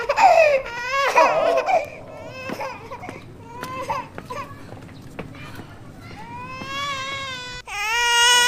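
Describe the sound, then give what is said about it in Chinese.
A baby cries in high, wavering wails that rise and fall. Loud strained bursts come early, then gentler whimpers follow, with a final sustained cry at the end. “乖乖不哭啊，不哭。”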